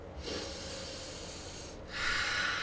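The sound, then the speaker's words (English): A person breathes in through the nose and out through the mouth during a timed breathing exercise. A faint, soft inhale is followed by a louder, airy exhale, with no talk. “we're going to breathe in through the nose and out through the mouth for a count of two.”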